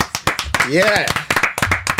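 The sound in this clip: Hands clap sharply for a guest in a short, uneven burst of applause, with a voice talking loudly over the claps.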